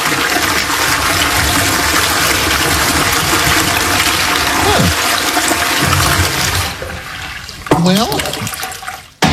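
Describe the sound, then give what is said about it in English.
An automated toilet flushes away solid and liquid waste with a loud, sustained rushing roar of water lasting about seven seconds, then drops off abruptly, leaving a brief gurgle at the end. “It then extends a disposal arm, completely flushing both the solid and liquid waste away. Immediately after, it runs an intensive self-cleaning and sanitizing cycle on the bowl, leaving it pristine for the next trip.”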